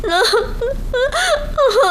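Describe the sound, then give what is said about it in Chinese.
A person crying and whimpering, with wavering, high-pitched wails that rise and fall in a few sobbing bursts, fairly loud throughout. “我求求你，我求求你别哭行不行啊？咱有话好好说好不好？求求你别哭，不哭了，不哭了啊。”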